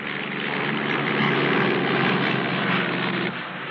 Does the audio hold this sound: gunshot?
no